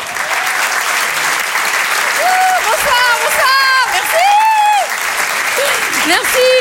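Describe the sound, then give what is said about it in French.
Audience applause and cheering greet a stand-up comedian at a live comedy show: dense, steady clapping with whoops and shouted cheers rising above it throughout. “Faites du bruit s'il vous plaît pour Vanessa Caillot.”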